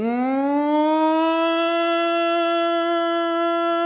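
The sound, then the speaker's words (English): A warning siren like a tornado horn gives one loud sustained tone that rises in pitch at the start, then holds steady and level to the end, with no voices. “those horns, those, like, we have it in Indiana, that meant we have a tornado. That's what that meant in Indiana.”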